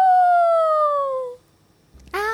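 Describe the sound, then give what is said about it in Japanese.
A person's voice imitating a dog howling: one long, loud, sustained tone that slides gently downward in pitch, then fades. After a short pause, another voiced sound starts. “お題は犬の遠吠え。 犬の 遠吠え。”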